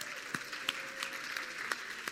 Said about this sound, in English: And if you're around a dad, can you just clap for them and thank them?